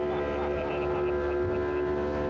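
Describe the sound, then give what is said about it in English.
Small motorboat speeding across open water with a crowd of passengers packed in and spray coming over the back; a loud, steady engine drone with a constant tonal hum runs the whole time without a break. “This small boat shows up, we all cram in and take off.”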